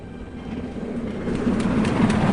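A train rumbling into a station in Shenyang gives a steady, low, dense roar that grows slightly louder toward the end, with no voices.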